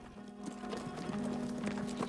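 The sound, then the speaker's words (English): Horses' hooves clip-clop as riders enter a town, one horse led behind another: many quick, uneven clops at a steady walking pace, fairly faint, over a steady low tone. “Pete and Lucio ride into a town, Mike now slumped over Lucio's horse, while Lucio leads another horse behind him, Melchiades hanging over it.”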